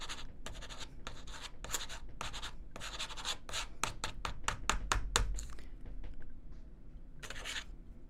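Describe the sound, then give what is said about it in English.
A pen scratches across paper as notes are written by hand, in many quick, rasping strokes that come in short bursts, with brief pauses between words and a faster run near the middle. “Hold on, let me write that down. That's going to go on the memoir.”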